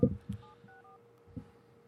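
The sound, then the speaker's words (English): Telephone keypad tones sound as someone dials to place a call: a few short, faint electronic beeps at steady pitches, set between soft low thumps. “We're calling our beef jerky lady. Does she know we're going to be on air? Yeah, yeah. I text her, tell her that we're going to dial right now.”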